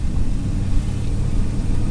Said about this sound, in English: we're on a Sunday drive right now.